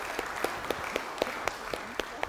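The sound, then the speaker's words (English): A church audience applauds the children at the end of a service. Sharp, evenly spaced claps stand out over a faint wash of softer clapping, quiet and steady. “Can we give you a round of applause?”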